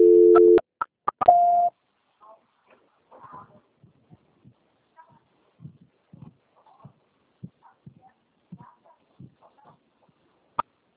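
Telephone line tones sound during a call transfer: a short steady low tone and a few sharp clicks, then a brief higher tone. Faint, sporadic clicks and blips follow over near silence.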